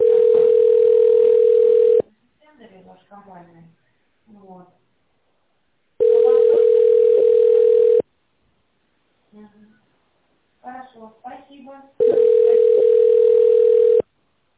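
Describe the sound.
Telephone ringing tone while an office call is being transferred to the sales department: three long, steady mid-pitched tones, each about two seconds, with people talking in the gaps between them.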